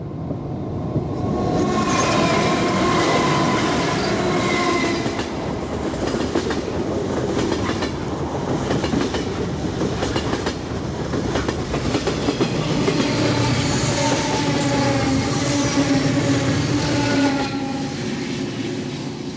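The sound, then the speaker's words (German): A train runs continuously, its loud, steady rumble laced with rhythmic clattering from the wheels on the rails for the whole clip. “Das ist mein Zug. Ich muss mich beeilen.”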